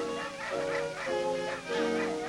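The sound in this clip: Two hound dogs baying on a fox hunt, one voice with a hooked ending and the other croaky: a few long, wavering, drawn-out bays in a row, fairly faint.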